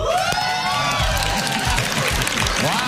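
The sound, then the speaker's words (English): A late-night talk show studio audience on Conan O'Brien's show erupts in loud, continuous cheering, with shrill whoops and whistles rising above the roar of the crowd. “Euphoria from the audience. That was several years ago from Conan O'Brien there.”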